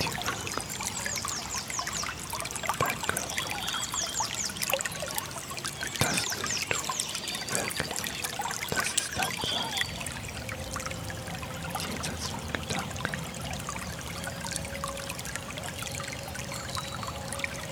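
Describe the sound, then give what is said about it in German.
Splashing, trickling water pours steadily throughout, a continuous bright babbling texture with no pauses, at an even moderate loudness and with no voices. “Das Plätschern,”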